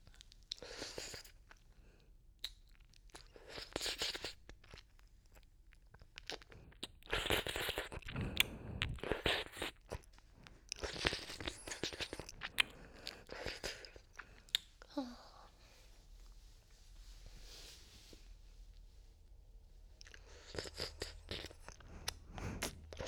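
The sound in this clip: Wet ear-licking mouth sounds in an ASMR recording: soft, close smacks, clicks and slurps that come in irregular bursts throughout, quiet and intimate, with brief pauses between them.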